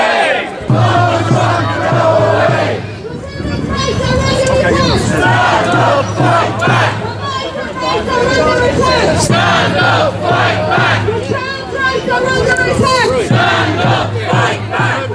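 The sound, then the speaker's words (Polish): Crowd chanting at a street demonstration held during Donald Trump's visit: many voices shout repeated phrases in a loud, steady rhythm that continues throughout, with crowd babble filling the gaps. “Posłuchajmy jeszcze przez chwilę tych dźwięków, które Tomasz wczoraj zarejestrował podczas tej manifestacji.”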